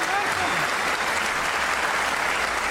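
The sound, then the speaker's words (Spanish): Crowd applause rises into an ovation, a dense, loud, steady wash of many hands clapping that holds at the same level for the whole stretch. “Peor todavía será la ovación tributada a nuestro Gillespie.”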